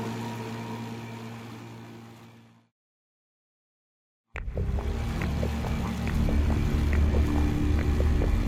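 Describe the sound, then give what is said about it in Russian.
Outboard engines of flat-bottomed motorboats speeding downstream on a river make a steady droning hum with a rushing, wind-like wash. The sound breaks off into a brief silence, then resumes slightly louder. “вынырнули одна за другой три плоскодонные моторные лодки. На каждой по два человека. Несутся вниз по течению.”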